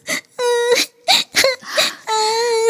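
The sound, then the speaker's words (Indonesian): A young child wails and whimpers after getting hurt while playing and soaking their clothes, in a series of drawn-out, high, tonal cries broken by short pauses, with no talk. “Sudah, tidak perlu menangis lagi ya.”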